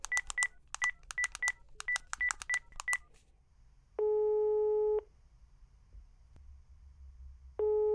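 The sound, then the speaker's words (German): Telephone call being dialed: a quick string of many short touch-tone beeps in uneven clusters, then a pause and a long steady ringing tone, with a second ring starting just as it ends. “Komm. Okay, lass anrufen.”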